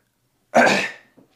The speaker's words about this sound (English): I always got to clear my damn throat on the podcast.